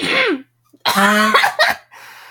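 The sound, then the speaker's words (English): Aggressive throat clearing: a short vocal rasp, a brief pause, then a loud, harsh, gravelly burst that breaks into a few rough coughing pulses before trailing into a softer breath. “That was such an aggressive, like, throat clearing.”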